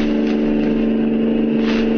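An old car's engine drones steadily during a pursuit, giving a continuous low hum with no clear revving and no talk over it.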